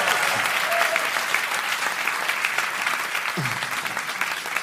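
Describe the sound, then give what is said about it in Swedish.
Live audience applause at Skalateatern in Stockholm: a dense, steady roar of many hands clapping holds at an even, fairly loud level from start to finish. “Som ni kanske hör så spelar vi in veckans podd inför publik.”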